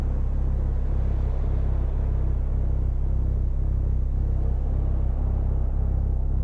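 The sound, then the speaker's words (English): Low engine rumble heard from inside a car as it drives out of a parking structure: a continuous, even, deep drone with a faint regular pulse and no talking. “inside Jay's car. The parking lot lights flash across Jay's face as she exits the structure.”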